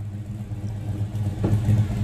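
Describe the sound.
A Mustang car engine rumbles low and steady, then swells a little louder with a brief rev toward the end.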